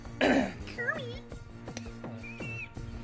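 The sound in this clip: A single harsh, throat-clearing cough to clear phlegm bursts out at the start, followed by quieter squeaky tones.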